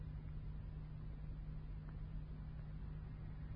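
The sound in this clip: A motor vehicle's engine runs for a drive across the desert: a low, steady rumbling drone with broad noise and no clear change in pitch.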